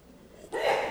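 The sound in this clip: A sneeze bursts out halfway through, a sudden loud breathy blast that rises out of quiet background and holds steady to the end.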